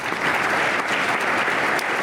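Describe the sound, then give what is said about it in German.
Steady, dense applause from a conference audience closing the first day of a gathering on sexualized drug use, continuous and even from start to finish without a break. “Am Ende des ersten Tages der ChemCon gibt es viel Applaus.”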